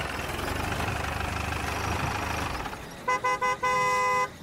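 A car horn honks in front of a large iron gate at night. The car's engine idles with a low, steady rumble, then the horn gives three short toots followed by one longer blast.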